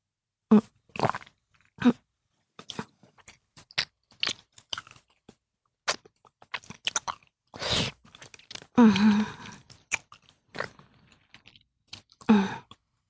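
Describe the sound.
Wet mouth sounds from saliva pooled in the mouth: many quiet, irregular smacks, clicks and squelches, some short and sharp, a few longer and sloshier, separated by silent gaps.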